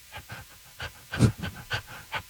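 People imitate a puppy panting, making many quick, breathy huffs in a loose rhythm. The voiced puffs are fairly quiet, and one stronger burst comes midway.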